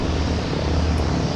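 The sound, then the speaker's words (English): Steady, loud propeller drone of a World War II C-47 transport plane arriving at an airport for an air show: a continuous, broad engine roar with no break. “That's the sound of a World War II C-47 transport plane arriving at Camarillo Airport.”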